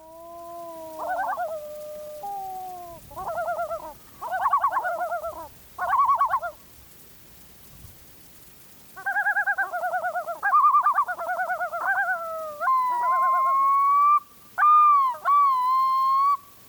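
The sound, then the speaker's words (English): A pair of loons calling to announce their territory on a lake just south of Teshekpuk Lake, trading loud, wavering, yodel-like phrases, then long sustained wails toward the end, with no other sounds. “This is similar to the red-throated loon recording we heard earlier. This is a pair announcing its territory on a lake just south of Teshekpuk Lake”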